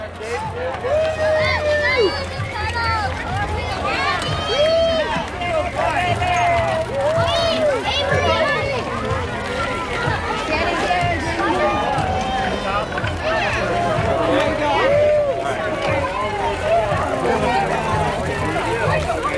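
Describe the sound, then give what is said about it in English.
Crowd noise from a Fourth of July bike parade in Redstone: steady, busy babble of many voices and scattered calls, with people talking throughout and no clear pauses. “Sounds from the 4th of July bike parade in Redstone.”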